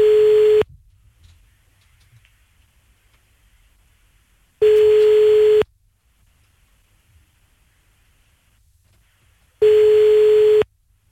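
Telephone line tones sound while a call is placed: three steady, fairly loud single-pitched tones, each about a second long, separated by long quiet gaps. No one speaks.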